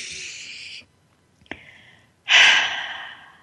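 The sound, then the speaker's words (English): A deep breath in a guided meditation session: three airy breath sounds separated by short pauses, the last a loud, full exhale that slowly fades, with no talking. “Let's take one more breath.”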